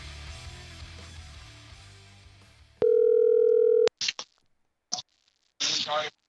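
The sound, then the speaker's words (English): A single ringback tone on an outgoing phone call: one steady, even hum lasting about a second, followed by a few short bursts of voice. “Now we got to call Joe. All right, it's ringing.”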